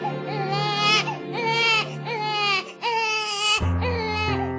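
A baby cries from hunger in a loud, high-pitched wail that comes in repeated bursts.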